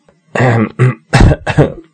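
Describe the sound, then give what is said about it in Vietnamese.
A voice fakes a cough with four short, husky bursts in quick succession, the voice imitating coughing and throat clearing, loud and alone. “Lâm Vãn Vinh vội vàng giả bộ ho hắn, ngắt lời nàng.”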